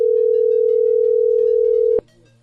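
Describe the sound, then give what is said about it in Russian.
A telephone dial tone heard while a number is being redialed: a loud, steady, mid-pitched continuous tone that cuts off abruptly with a click near the end, leaving faint low background noise. “Сейчас еще раз набираю.”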